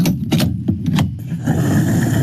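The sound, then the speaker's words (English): A fuel pump runs while diesel fills a car's tank: a few sharp clacks and knocks at first, then a loud, steady whirring rush of flow with no talking. “The pump is running, the litres are ticking up, and so is the cost of filling the tank.”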